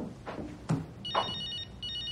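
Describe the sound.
A mobile phone rings with a bright, high electronic tone that starts partway through, pauses briefly and then resumes, after a few soft, scattered sounds at the start.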